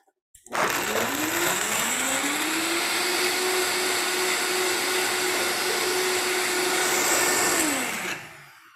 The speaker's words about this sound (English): since I added a bunch of chunky stuff, I like to blend it for a second first.